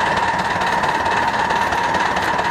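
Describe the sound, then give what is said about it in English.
A coal-fired locomotive runs on steel rail, giving off a steady, dense mechanical rumble and roar that holds at an even loudness throughout, with no distinct separate events. “No hands. Runs itself. You got a good locomotive. Everything set, balanced. No problem. Pull a little coal in.”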